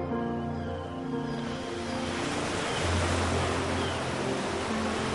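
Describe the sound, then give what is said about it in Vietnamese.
Sea waves wash against a shore in a steady, rushing surf that swells slightly midway and then continues without a break. “Sóng ngoài kia vẫn xô bờ, đã là vậy và ngàn năm sau vẫn sẽ xô bờ.”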